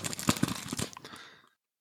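Crisp, irregular crinkling of a foil NFC credit card protector sleeve with an aluminium lining as it is handled. The crackles come in quick bursts for about a second and a half, then stop.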